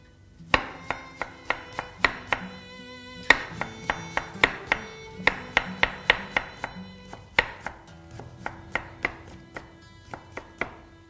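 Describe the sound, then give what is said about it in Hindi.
A knife chops a medium cucumber on a cutting board for a salad, giving many crisp, sharp knocks in quick uneven runs separated by brief pauses. The knocks are loud and clear, with nothing else behind them. “Cucumber को भी काटना है, ताकि हर चीज़ equal look दे हमें।”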